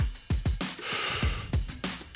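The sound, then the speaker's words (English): A deep breath drawn in through the mouth before reading a long list in one go: a steady, breathy rush of air lasting under a second, set between short, soft bursts of breath and mouth noise. “I'm going to take a deep breath and then do them all in one breath.”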